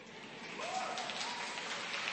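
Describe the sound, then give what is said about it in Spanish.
Students applauding, a faint, dense patter of clapping that sounds almost like rain, swelling slightly after the opening and then holding steady with no clear individual claps. “Aplaudan, muchachos.”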